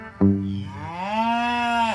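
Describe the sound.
A cow gives a single long, loud, resonant moo with no other sounds. It starts abruptly, holds a low tone, lifts slightly in pitch midway, then cuts off.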